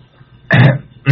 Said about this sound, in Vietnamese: Thầy Tám hớp miếng nước bằng rồi tằng hắng lấy giọng, chậm rãi nói